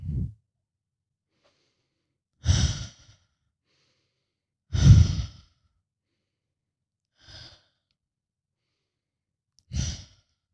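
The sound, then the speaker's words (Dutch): Deep breathing, in through the nose and out through the mouth, comes as five soft breaths spaced a couple of seconds apart with silence between them, one noticeably fainter than the rest. “In door de neus. Uit door de mond. Goed zo.”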